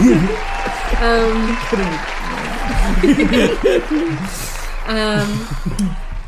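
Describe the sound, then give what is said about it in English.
Clapping played as a sound effect: applause patters along steadily beneath people talking, with a brief chuckle among the voices. “Clapping noise here, Sean.”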